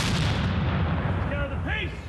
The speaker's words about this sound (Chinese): 17世纪的火炮， 开火！